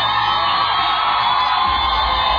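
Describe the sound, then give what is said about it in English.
Girls cheering at a singing competition, a dense, high-pitched mass of screams and whoops that stays loud and continuous throughout. “It's all girls cheering.”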